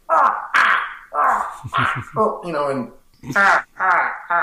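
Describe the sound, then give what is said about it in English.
Voices imitate the straining grunts of puppet characters climbing a ladder, one pushing the other up. Many short, effortful vocal grunts and strained noises come in quick bursts with brief gaps between them. “So we both had to do our efforting sounds, which was just,”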